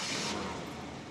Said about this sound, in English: Trey starts the engine.